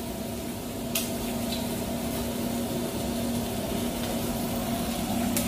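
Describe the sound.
Red mullet fish frying in hot oil gives a steady, fairly quiet sizzle, an even hissing crackle that runs unbroken for several seconds.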